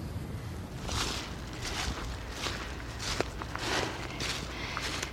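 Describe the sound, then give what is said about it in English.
Footsteps walking into the woods at Newhall in the Pentland Hills: a steady, evenly spaced series of soft, crunching steps on the ground, quiet and alone. “I'm heading into the woods at Newhall in the Pentland Hills, not far from where I live, to get some wild garlic.”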